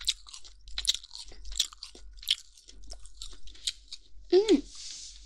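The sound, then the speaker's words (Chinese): Crispy, chewy skin is bitten and chewed, giving many sharp, crackling crunches in irregular bursts with quiet moist chewing between them. A short voiced sound rises near the end. “这个皮也很脆，很有嚼劲呢。”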